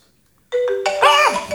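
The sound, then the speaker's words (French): A telephone ringing: after half a second of silence, electronic ringtone notes start abruptly and stack into a bright, layered melody whose pitch briefly swoops up and back down before fading slightly. “Ah, ça sonne. Ah, vous m'avez. Excusez-moi, je décroche parce que moi, c'est important.”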